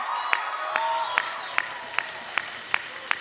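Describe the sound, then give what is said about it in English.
Congregation clapping in praise during a church worship service, with a steady, even beat of about eight claps over a sustained tonal background. “let's give a big shout of praise to the Lord Jesus Christ.”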